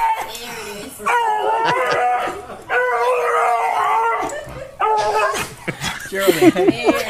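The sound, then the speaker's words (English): Dog in a waiting room giving loud, drawn-out howling barks and yowls with strong tonal wavering. The calls run in long stretches with brief breaks and a choppier burst near the end. “you've got to hear this barking dog. So I'm gonna play the video. I'm gonna a little bit here, so I feel like it's a pug.”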